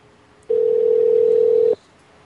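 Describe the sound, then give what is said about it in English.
A telephone line ringing: one steady, mid-pitched electronic tone lasting a little over a second, loud and clear with no voices over it. “The phones are ringing.”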